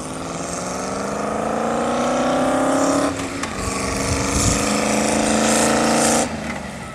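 The V8 engine of a one-off motorcycle runs with a loud, droning roar whose pitch climbs slowly. It dips briefly midway, then rises again before cutting off shortly before the end.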